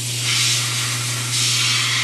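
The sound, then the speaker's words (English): Steady hissing spray as chrome plating is sprayed onto plastic wheel caps for a Mazda four-wheel drive pickup in Broken Bow, Nebraska, a loud, continuous airy rush with a low steady hum beneath, swelling slightly twice. “sprays chrome plating onto plastic wheel caps for a Mazda four-wheel drive pickup”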